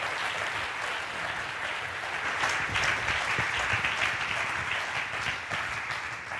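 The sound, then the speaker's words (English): Applause from an audience welcoming a man forward to lead a Q&A at a church gathering: dense, steady clapping that holds at an even level throughout, with no voices on top. “would you guys please join your hands in welcoming the man.”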